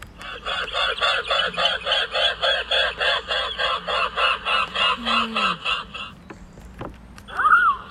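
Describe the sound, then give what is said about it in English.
Mute swan calling in a rapid, regular series of many nasal, honking pulses that keep an even rhythm for about six seconds. A short, different, louder call follows near the end. “This is the noise that a mute swan makes.”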